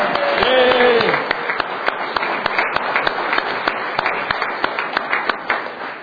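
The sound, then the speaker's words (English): Applause rises in a legislative chamber as members honour guests during a floor session. Scattered, crisp claps follow a brief voice at the start and carry on steadily and moderately loud to the end. “They're here as part of the WE activities, so give them a round of applause.”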